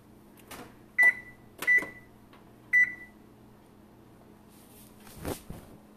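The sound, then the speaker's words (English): Kitchen oven being switched off: three sharp, high electronic beeps, evenly loud, followed by a softer clatter, over a faint steady hum. “Oh, I need to turn off the oven. That's not good. Oven needs to get turned off because.”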